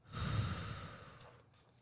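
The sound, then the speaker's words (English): One slow, deep breath, a soft airy rush that swells and then fades away, quiet and alone with no talking. “Sometimes it helps to take a deep breath first. Will you do it with me? Breathe in and out.”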